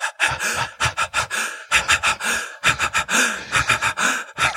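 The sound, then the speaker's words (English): Rapid breathing in a hyperventilation-like pattern that mimics laughter: short, forceful breaths out broken by quick gasping breaths in, repeated in many tight bursts throughout. “So if you do three short breaths out and then one quick breath in, it's almost hyperventilating.”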